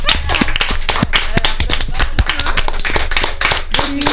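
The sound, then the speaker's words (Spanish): Applause right after a joke is told: a dense, loud, continuous patter of many hands clapping that holds steady from start to end. “Aplausos.”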